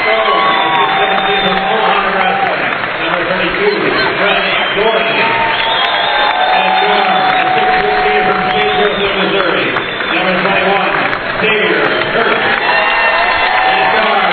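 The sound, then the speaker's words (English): A crowd cheering and applauding as players are introduced at a college basketball game in the Missouri Western Fieldhouse. The roar is loud and continuous, with whoops and shouts, and voices mix into the din. “Liners being introduced in front of the fans here at the Missouri Western Fieldhouse, part of the Looney Complex on the Missouri Western campus. They just introduced Xavier Kurth to the crowd here, and big round of applause for Xavier”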